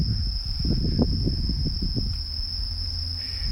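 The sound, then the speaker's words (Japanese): Insects chirping outdoors make a steady, high-pitched continuous trill that runs unbroken through the whole recording. Low rustling thumps sit beneath it early on and then fade, leaving the insect drone alone and fairly loud. “虫がすごい鳴いてますね。”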